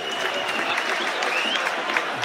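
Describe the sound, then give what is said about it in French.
Spectators applauding in the stands at a football match, a brisk, dense wash of clapping from many hands that stays even and fairly loud from start to finish. “Ça applaudit même du côté de la tribune sur cette mauvaise passe de Mandouki.”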